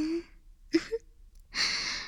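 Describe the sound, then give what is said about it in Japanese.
Breathy blowing into the listener's ear in an intimate close-voice setting, a few short soft vocal sounds and then a steady, airy rush of hiss that carries to the end. “耳ふう、気持ちよかったですよね。”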